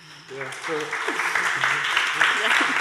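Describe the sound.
Audience applause welcoming three environmental defenders on stage: steady clapping builds up and continues, with voices talking over it.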